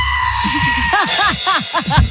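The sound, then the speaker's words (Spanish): A goat bleats in a rapid run of nasal, wavering cries, softer and shorter at first, then louder and fuller, repeating quickly one after another. “Es un chivo.”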